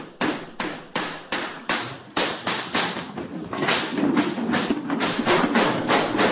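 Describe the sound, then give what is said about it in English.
A volley of gunshots is fired inside a cafe during a shooting: sharp, hard cracks at first spaced in quick succession, then running together into a dense, continuous barrage. “Audio recorded inside the cafe from the BBC captures a speaker being cut off mid-sentence by a volley of shots.”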